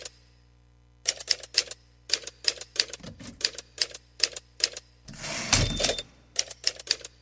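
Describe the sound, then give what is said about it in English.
Typewriter keys clacking in quick bursts of several strokes separated by short pauses, with a louder, harsher mechanical burst late in the run, alone with no talk. “sometimes I have to backspace over words and type X's through them because I don't have any white out.”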